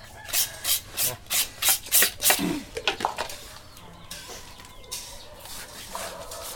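Cookware being scrubbed by hand: a quick, steady run of harsh scraping strokes, then softer, irregular rubbing. No one speaks.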